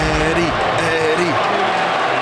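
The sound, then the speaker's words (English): Football crowd roaring wildly for a player, a dense steady wash of loud cheering that runs the whole length beneath a man's voice talking over it. “The crowd are going wild for Eddie.”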